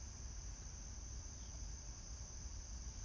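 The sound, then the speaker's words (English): Faint, steady high-pitched trilling of crickets continues unbroken over a low, soft background hum. “It's a little quiet right now. I think I can hear some birds and some crickets.”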